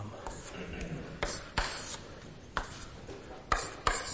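Drawing on a board during a physics lecture: steady scratchy strokes broken by several sharp taps and clicks as the drawing tool meets the surface, with no talk.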